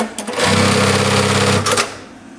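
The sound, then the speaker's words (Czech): A special industrial sewing machine used for sewing on shoulder straps and clips in a garment workshop. It gives one loud, steady run of fast mechanical stitching, about a second long, that starts and stops abruptly. “Ne, to je jako, tam se sponky přišívají k tomu. Speciální stroj na přišívání ramínek.”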